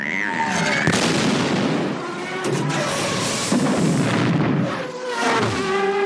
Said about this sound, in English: Our next explosion, a very, very somber one, if we're going to go by feeling, Rats Tyrell's pod race exploding.